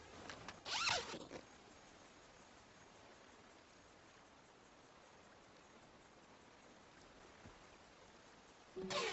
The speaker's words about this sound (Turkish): Çadırına girip fermuarını çekti.